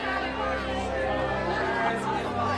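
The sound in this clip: Steady babble of a crowd of students chatting and saying goodbye to one another, many overlapping voices at an even level throughout.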